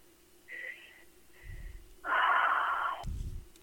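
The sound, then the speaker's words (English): A big, deep breath taken during a guided meditation: a few airy breath sounds, then a long, loud, hissing intake of air and a lower, breathy rush at the end. “Take a big, deep breath.”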